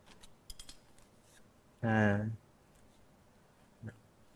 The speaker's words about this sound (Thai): แล้วทำการตัดตามระยะนะครับที่กำหนดนะครับนะตัดในส่วนของอินซูเลชันที่ยาวเกินไปนะครับ